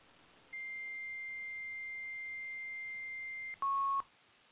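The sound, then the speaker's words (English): Telephone tones sound during a call attempt that fails: a steady high-pitched beep holds for about three seconds, then a short, louder, lower and buzzier tone follows, with no talk over either. “Now we're dialing.”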